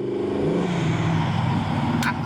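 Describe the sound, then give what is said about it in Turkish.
A car engine roars loudly and steadily as the car accelerates hard, its low engine drone holding throughout, with a brief hiss near the end. “Aman Tanrım. Nasıl da fırlıyor. Tanrım, bu arabaya bayılıyorum.”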